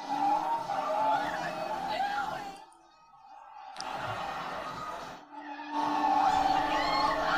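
Tires skidding and a car motor from a film driving scene with a small car, heard as long stretches of loud squealing, rushing noise broken by two brief dips.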